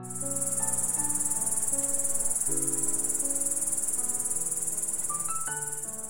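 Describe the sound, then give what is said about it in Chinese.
A grasshopper chirps in a loud, continuous high-pitched buzzing trill that holds steady throughout, with soft melodic tones moving underneath. “声音中还带有一点点沙沙质感的蚱蜢叔叔”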